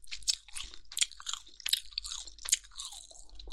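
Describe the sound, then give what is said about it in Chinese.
Chewing of chewy meat: quiet, wet mouth sounds with many irregular crunches and bites that follow one another steadily, with no talking. “好吃好吃，太好吃了，好有嚼劲啊，嚼给你听听”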